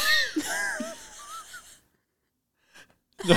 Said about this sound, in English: A big inhale.